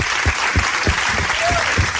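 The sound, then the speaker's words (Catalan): An audience breaks into applause, dense and steady clapping throughout with a few low thumps underneath. “Bon aplaudiment, per favor!”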